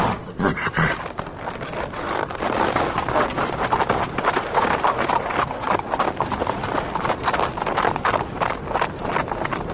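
A horse's hooves clip-clop in a fast, steady rhythm throughout, many sharp hoof strikes following closely one after another at a constant, fairly loud level.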